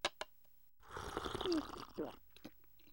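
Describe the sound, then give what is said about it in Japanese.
Someone drinking tea: two soft clicks, then a faint, drawn-out slurping sip lasting about a second, followed by a shorter wet sound. “ああ、うまいな。やはり萩原君の入れてくれるお茶は最高だ。”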